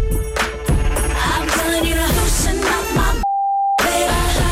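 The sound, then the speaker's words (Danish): A steady, pure beep tone censors a missing word in a pop song. The music plays, cuts out abruptly for a single short beep, then resumes. “Hvad er det, vi har bippet ud af sangen her”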